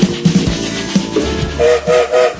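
A train sound effect begins with rumbling clatter and rhythmic clicks, then ends with a few short, tonal whistle blasts in quick succession.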